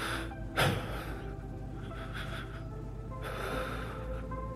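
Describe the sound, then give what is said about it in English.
A man takes a deep, shaky breath, with a sharp breathy burst early on and further trembling breath noise later, over a steady low background. “He took a deep, shaky breath.”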